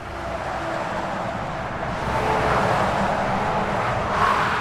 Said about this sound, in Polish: z burmistrzem Torzymia Ryszardem Stanulewiczem jedziemy w okolice węzła autostrady w Torzymiu